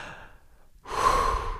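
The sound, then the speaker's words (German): A single deep breath drawn by one person: a faint, airy hiss at first, then a loud, rushing breath that fills the second half and holds steady until the end, with no talking. “atmen wir alle einmal ganz tief durch.”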